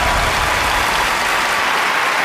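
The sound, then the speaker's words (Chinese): Dense audience applause welcomes contestants onto a competition stage, a loud, steady wash of clapping that holds throughout with no voices over it. “让我们掌声有请吴子晴、肖军来到舞台上，有请。”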